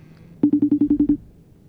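Telephone dialing tones for placing a call: eight short, rapid beeps at the same low pitch, evenly spaced and loud, followed by quiet.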